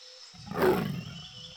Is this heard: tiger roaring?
yes